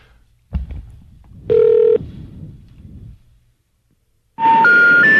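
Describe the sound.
A telephone call attempt is heard: a dull knock, then a single sustained beep and low rumble, followed after a pause by a loud three-step rising error tone.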